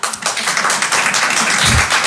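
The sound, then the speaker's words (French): Applause from a small audience of about seven people at a French stand-up comedy show, a dense, loud, even patter of clapping that holds steady for the whole stretch. “Qui me connaît pour applaudissement?”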